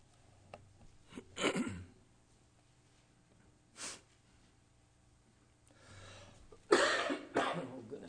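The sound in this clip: A person coughs and clears their throat several times to dislodge something stuck in it, short rough bursts separated by quiet pauses, fairly faint overall.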